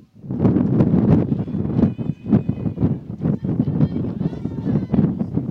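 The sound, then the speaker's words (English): Wind from the north gusts over the microphone at an outdoor softball game, making a steady low rumble and buffeting. Brief, faint bursts of other sound rise and fall within the noise. “So the wind is blowing out of the north here.”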